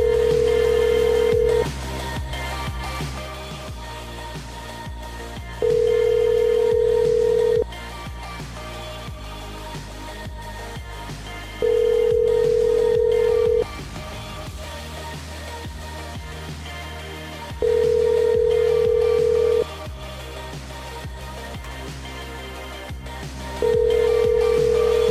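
Ring-back tone of an outgoing telephone call: a steady tone sounds five times in long, evenly spaced bursts, with a low, continuous background underneath between the rings.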